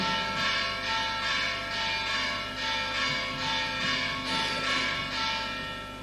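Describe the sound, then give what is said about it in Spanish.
Bells peal in a steady, even rhythm, many loud strikes overlapping into a ringing wash, with no talking over them. “un momentito que terminen las campanas, si no, no nos enteramos.”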